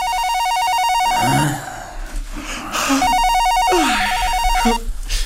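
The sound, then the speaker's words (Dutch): A telephone rings in a bedroom in the morning with two long bursts of bright, warbling electronic ringing separated by a short pause, fairly loud throughout. “die telefoon, is die van jou?”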